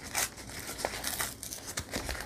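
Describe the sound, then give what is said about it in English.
Tearing by hand, guided with a finger, mixed with crinkling: a run of soft, dry rips and rustles, faint and irregular in rhythm. “Lots of tearing in this one. I'm just making it like stick out a little bit. You can always tear more.”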